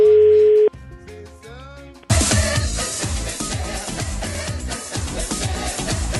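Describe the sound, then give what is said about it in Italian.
Telephone hold music plays during a phone call. A brief steady tone comes first, then a short, thin electronic melody, and then a louder, dense, rhythmic stretch of music fills the rest. “La musichetta d'attesa.”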